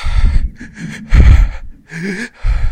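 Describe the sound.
A human voice imitating frantic, heavy breathing: several rapid, ragged inhales and exhales with gasping, wheezy edges, loud and uneven in rhythm.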